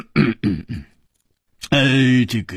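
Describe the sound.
A storyteller's voice imitates a king's heavy, deliberate cough: three short, throaty bursts in quick succession, then a brief silence and a drawn-out spoken syllable.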